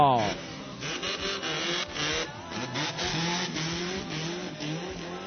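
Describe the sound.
Race car engine roaring past during a road race stage near Santa Teresita, a steady droning growl with falling harmonics at the start, heard under continuous talk.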